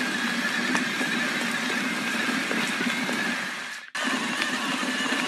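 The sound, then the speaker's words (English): Steady motor whine and rushing noise from a high-powered, big-battery electric mountain bike while riding, holding an even level with a faint tonal hum, then cutting out briefly near the end before resuming. “Right now, we're riding alongside a high-powered, big battery electric mountain bike.”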